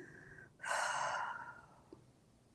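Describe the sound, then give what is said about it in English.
A deep breath out during a guided relaxation exercise: a long, soft, airy exhale lasting about a second, rising quickly and tapering away into near silence. “take that good deep breath in, big exhale out”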